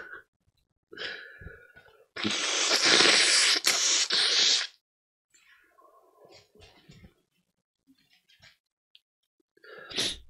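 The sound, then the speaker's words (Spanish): A congested person blows their nose: one loud, rough, honking blast lasting about two and a half seconds, with short breathy sniffs before it and quieter snuffling sounds after. “Voy a sacarme los mocos, ahora vais a perdonarme esto.”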